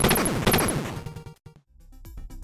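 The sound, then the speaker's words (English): Gunfire in the NES video game Batman: loud, noisy 8-bit shot bursts mixed with buzzy electronic tones, dense at first, briefly dropping out, then resuming in sharper repeated blasts. “You start firing right in front of you. It just takes one shot to waste the idiot coming towards you.”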